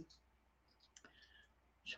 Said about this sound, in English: I don't know if you can hear this in the background, but I'm fiddling with earrings because I need a fidget tool